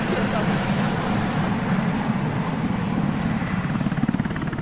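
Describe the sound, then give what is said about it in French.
Loud, steady rotor throb and turbine roar of an arriving Puma military helicopter during a military operation in northern Mali, a continuous dense wash of noise with rhythmic low-pitched blade pulsing throughout. “C'est notre hélicoptère qui arrive. Oui, voilà, c'est l'hélicoptère, donc le Puma qui va nous amener sur la zone des opérations.”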